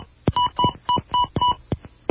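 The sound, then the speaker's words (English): Touch-tone dialing of a phone authorization code on a long-distance service: five short, evenly spaced electronic beeps mixed with sharp clicks of keypresses, at a steady brisk rhythm with no talk. “Enter my authorization code.”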